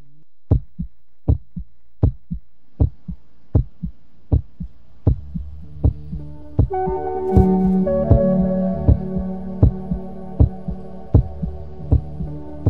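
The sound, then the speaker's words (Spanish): Heartbeat with a steady, even rhythm of low, thudding beats throughout. Midway, a droning tonal hum swells beneath the beats and then fades back. “con esos latidos que nos llegan así de repente”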